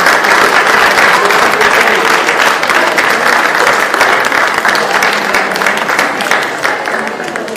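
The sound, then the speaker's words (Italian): Loud, dense applause from an audience at an Italian cooking award ceremony, sustained clapping that holds steady for about seven seconds and eases slightly at the end. “Quindi un applauso anche per”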